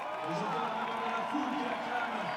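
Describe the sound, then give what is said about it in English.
A large crowd cheers along the course of a soapbox race. The cheering is a faint, continuous wash, and a voice talks over it throughout. “Being cheered on by this huge crowd here.”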